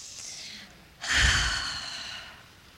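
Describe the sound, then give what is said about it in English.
A very deep breath taken together by a group during guided meditation: one long airy rush that swells suddenly, then slowly fades, with faint breathy noise before it. “Together, we all take a very deep breath.”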